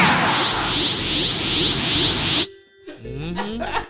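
Video game audio of a character flying through beams: a loud, steady rushing whoosh that holds for over two seconds and cuts off abruptly, followed by quieter tonal game sounds and thuds.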